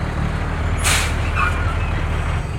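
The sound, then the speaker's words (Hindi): A truck rumbles and comes to a stop outside a house, with a steady low engine drone throughout and a short, sharp hiss of air brakes near the middle. “तभी घर के बाहर घुर घुर करती एक truck के रुकने की आवाज सुनाई पड़ी।”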